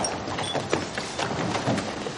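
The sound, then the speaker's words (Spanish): Hurried footsteps of several Afghan men running down a staircase at a building site, a rapid, uneven run of thuds and taps over a steady background hiss. “Los afganos bajan corriendo una escalera.”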